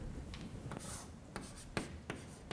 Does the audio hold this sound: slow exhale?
no

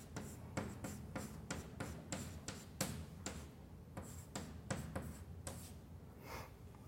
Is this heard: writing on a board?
yes

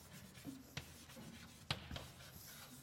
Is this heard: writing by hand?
yes

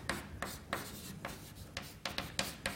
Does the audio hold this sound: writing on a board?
yes

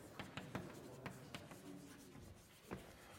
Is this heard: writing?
yes

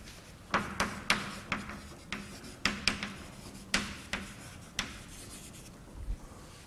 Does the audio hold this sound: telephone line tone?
no

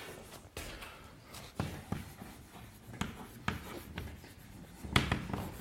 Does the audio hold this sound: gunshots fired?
no

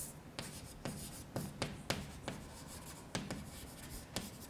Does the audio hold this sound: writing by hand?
yes

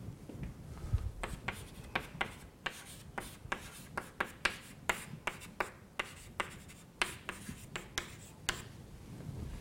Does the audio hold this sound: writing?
yes

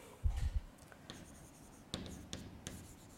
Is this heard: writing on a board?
yes

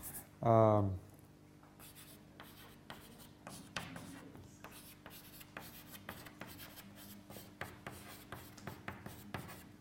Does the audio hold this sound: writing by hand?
yes

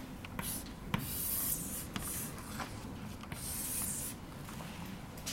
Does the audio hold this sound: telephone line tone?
no

